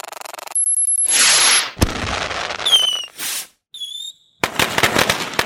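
Fireworks going off: a loud sequence of bursts and crackling, mixed with several shrill whistling tones, ending in a dense run of rapid crackling pops.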